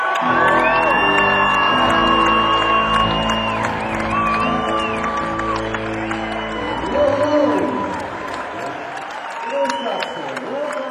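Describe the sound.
A concert crowd cheers and whoops to welcome a rock band's drummer: a dense, sustained roar of voices with shouts rising above it, continuing loudly throughout.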